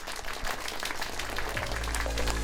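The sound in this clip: Audience applause at a live stage event: dense, steady clapping that fills the whole stretch at an even level, with a low hum beneath it.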